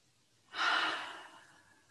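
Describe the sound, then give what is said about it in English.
A single deep breath taken during a guided relaxation exercise: a soft, airy rush that swells suddenly about a quarter of the way in, then fades slowly over the following second, faint and alone without talk. “let's all take one more deep breath together.”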